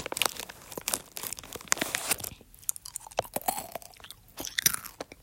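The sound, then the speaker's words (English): Crunchy chewing of Reese's Pieces candy, heard close and fairly quiet: many irregular crisp bites and crunches, a short lull midway, then another burst of crunching. “Reese's Pieces are the best type of Reese's out there.”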